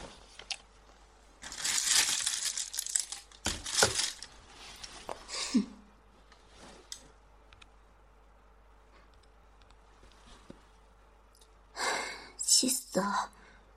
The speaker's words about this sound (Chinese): 你好，帮我打包起来，谢谢。